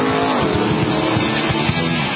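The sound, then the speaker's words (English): Sports racing cars speed past at a major sports car race, their engines producing a loud, continuous, harmonically rich roar that runs unbroken for about two seconds. “Sebring, the biggest sports car race of them all”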